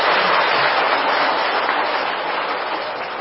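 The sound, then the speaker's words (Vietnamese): Sustained applause from the assembly in a Buddhist monastery lecture hall, welcoming the abbot. The clapping is an even, dense wash that holds steady and eases slightly near the end. “Xin một lần nữa mời toàn thể pháp hội cho một bàn pháo tay thật là hoan nghênh.”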